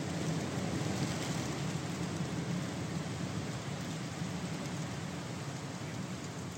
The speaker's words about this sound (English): what you hear isn't a freeway. What you hear is the wind through the trees.